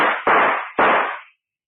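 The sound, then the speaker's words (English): Gunshots from a gun: two sharp, loud bangs, each trailing into a long decaying roar, follow the fading tail of an earlier shot. No voices are heard. “All right, then I'll shoot.”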